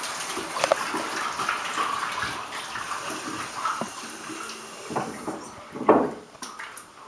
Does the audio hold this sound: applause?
no